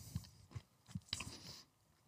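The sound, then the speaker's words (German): Faint, crunchy chewing of a Reese's peanut butter candy: a few soft, irregular bites and mashing sounds, heard alone without talk. “Also man merkt schon, Reese's sind halt immer diese Erdnussbutter-Geschichten. Mm. Aber so, das schmeckt eigentlich ziemlich, ziemlich gut.”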